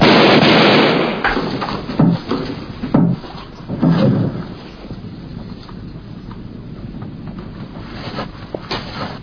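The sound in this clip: Gunshots fired indoors: a loud opening blast, then several sharp, heavy bangs in an uneven cluster, fading into a low, rough tail of lingering noise.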